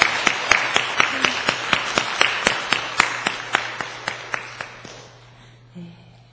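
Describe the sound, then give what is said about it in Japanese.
A church audience claps together in a Christmas service, with a long run of sharp, evenly spaced claps at a steady beat. The claps grow fainter and stop near the end, over a low constant hum. “イエス様に、クリスマスおめでとうの拍手を送りましょう。”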